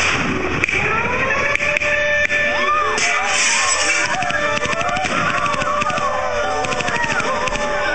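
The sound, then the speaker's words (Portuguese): Soldiers firing guns in a war scene: loud, dense, rapid cracks and thuds continue without a break over a constant noisy roar. “Há uma pessoa que grita porque vê as armas em punho dos soldados. E agora dispara.”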